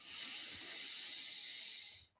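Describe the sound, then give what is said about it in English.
A single deep inhale draws in a long, steady airy hiss for about two seconds, then stops abruptly. It is quiet and stands alone, with no talk. “Taking a big breath in”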